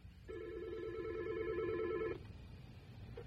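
A telephone rings with an incoming caller: one warbling electronic ring lasting about two seconds, fairly faint, followed by near quiet.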